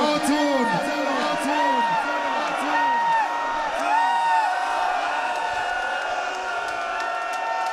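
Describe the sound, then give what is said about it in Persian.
A crowd shouts and cheers at a gathering honouring Imam Reza, with loud, repeated arching vocal calls rising and falling over a dense wash of voices that stays strong throughout. “کاش این داد زدن ها اجازه بده من روزه بگم.”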